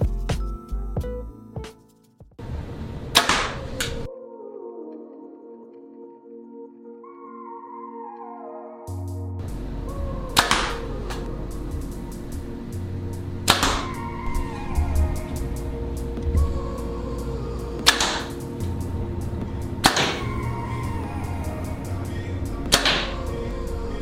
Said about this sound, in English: I need to shoot it though to make sure that the end game is the same as what I'm seeing, you know? So let's set it up, shoot it, and show you guys what it's like.